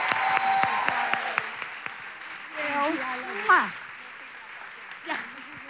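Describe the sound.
An audience rises to honor someone with applause and cheering: scattered sharp claps and whoops, moderately loud, with a voice speaking over the noise.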